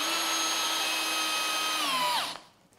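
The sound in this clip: A cordless screwdriver runs with a steady, high-pitched motor whine. The whine holds level, then falls in pitch and cuts off as the tool stops near the end.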